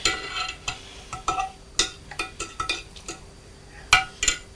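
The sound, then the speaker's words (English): A spoon stirs in a pot, making many light clinks and scrapes. They come in an irregular rhythm, soft and alone, with no talk. “Just one stir. One more stir. You stir it once more.”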